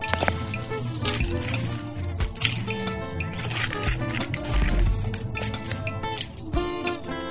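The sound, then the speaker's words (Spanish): Water runs in the countryside near a patio with a mango tree, a continuous flowing splash with birds chirping throughout. “Este es mi agua. Así suena el campo.”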